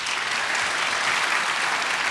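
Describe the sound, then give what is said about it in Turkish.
Applause from an audience sending off a guest on a folk music show: dense, continuous clapping at an even, moderate level from start to finish, with no voices standing out. “Alkışlarla uğurluyoruz.”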